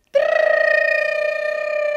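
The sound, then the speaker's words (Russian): A school bell rings for a break with a steady, buzzing electric tone that holds for about two seconds without a pause. No voices are heard over it. “Это что, звонок на веселый урок? Нет, на перемену.”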